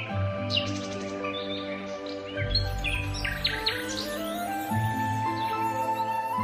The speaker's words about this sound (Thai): ช่วงเวลานี้นกกานานาชนิดก็จะมาเยือนผืนนาเหมือนแม่บ้านจับจ่ายตลาด